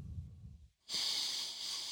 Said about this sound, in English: let's just take a couple deep breaths. Just in, hold it, out.